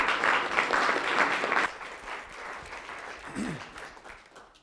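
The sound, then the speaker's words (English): Audience applause welcoming a speaker before a talk on early childhood programs as an economic development tool, a loud dense clatter of clapping that drops off partway through and trails away, with a voice briefly heard near the end. “Let's give a warm Wisconsin welcome.”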